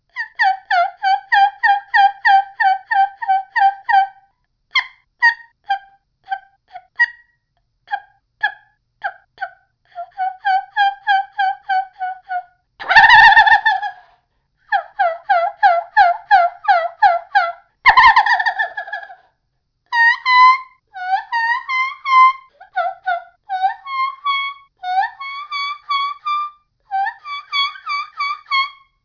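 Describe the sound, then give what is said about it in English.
Many series of high, rhythmic turkey yelps from a homemade call built from a thin, flexible plastic pill bottle. Quick runs of raspy notes are broken by short pauses, with a couple of harsher, louder squawks mixed in. “But I really think that the thin, flexible plastic in this pill bottle takes away from the sound quality that's coming from this call. But here's what it sounds like.”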